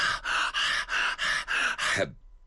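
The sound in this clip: A storyteller's voice imitates the heavy panting of a fighter catching his breath after battle: seven harsh, rapid breaths in an even rhythm, loud and alone, ending abruptly.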